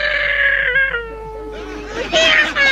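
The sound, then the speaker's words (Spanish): A cat meows in a long, drawn-out cry that holds a fairly steady tone and dips slightly midway, then breaks into a louder, rougher wail near the end. “Hay que decirle a ese gato que deje de fumar”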